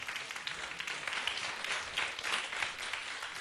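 Audience applause welcoming a performer onto a stage: a dense, steady wash of clapping that holds at an even, fairly soft level from start to finish.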